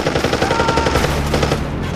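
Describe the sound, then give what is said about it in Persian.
Sustained, loud machine-gun fire on a battlefield in the Fakkeh region, rapid bursts overlapping in a dense, unbroken rattle with no voices. “بعضی منطقه رو به خمپاره و گلوله بسته بودن. هر لحظه چندین انفجار و هر انفجار چندین شهید.”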